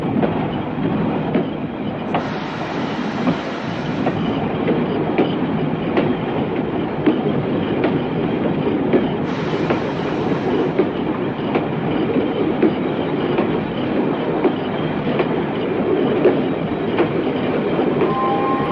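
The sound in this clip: A slowly moving train gives a steady, loud rumble with faint clatter that runs without a break for the whole stretch. No voices are heard.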